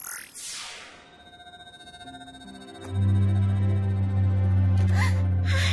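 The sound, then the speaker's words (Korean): A healing laser switching on: a whooshing sweep fades into a pulsing low drone, then a loud, steady electronic hum kicks in abruptly and holds, with a brief bright chirp near the end. “상처 치료도 해야 해. 나한테 맡겨. 치료 레이저 작동!”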